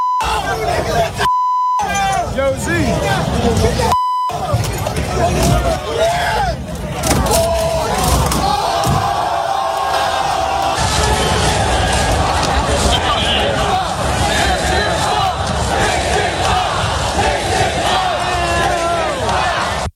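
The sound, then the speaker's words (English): Crowd roaring and yelling in New York City streets during rioting after a championship win that ended a 53-year wait, with buses torched and fighting. Dense, continuous shouting and crowd noise throughout, broken early by two short censor beeps. “buses were torched, rioting in the streets, fighting galore. And I'm like, how is that a celebration? 53 years, you should be celebrating your city, not wrecking it. Here's some of the sights and sounds of that.”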